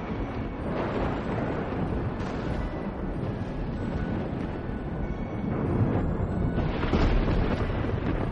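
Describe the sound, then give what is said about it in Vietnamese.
Thunder rumbles as a continuous heavy, low roar with no distinct breaks, swelling slightly louder toward the end. “Lá bùa vừa vung lên thì lập tức từ trên trời sấm sét nổi lên đùng đùng.”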